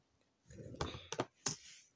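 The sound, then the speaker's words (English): Typing on a computer keyboard during an online search, with a short cluster of crisp key clicks and taps after a quiet start, fairly faint. “well, I can't find it on there, so I'm just going to type in Justin Smart. Justin Smart Keddie.”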